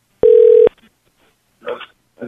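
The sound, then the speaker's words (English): A telephone call disconnects with one steady electronic tone, held for about half a second and then cut off abruptly. Brief, faint voice fragments follow after a pause. “We got disconnected again.”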